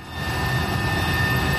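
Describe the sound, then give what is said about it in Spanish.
Firefighting aircraft working over a wildfire near Almuñécar: a steady, loud engine drone with a constant high whining tone, unbroken throughout. “De los medios aéreos que se van a reincorporar durante el día para intentar controlar el incendio declarado en Almuñécar.”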